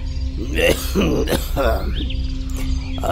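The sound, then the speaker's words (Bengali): A slight cough and rough throat clearing before someone starts speaking, heard as a few short, raspy bursts over a steady low hum. “একটু কেশে নিয়ে বলতে শুরু করল”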